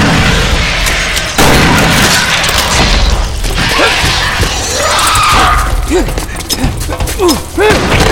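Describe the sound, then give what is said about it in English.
Grenade explosions go off during a battle inside a cavern, with grenades thrown two at a time. Repeated heavy booms and thuds blend with dense crackling noise, and voices shout over the din. “Detroit Green was tossing two grenades at a time, heaving them at the last possible second”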